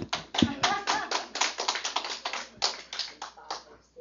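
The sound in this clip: An audience claps its hands in a long run of many crisp, fairly even claps at a steady pace that thins out and fades near the end.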